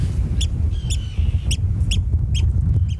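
Sandwich terns, white birds with black caps and sharp bills, fly over a nesting colony giving six sharp, grating, high cries at a fairly regular pace over a steady low rumble.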